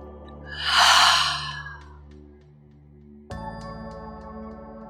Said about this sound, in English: One more time, big breath in, fill all the way up. Loudest exhale yet.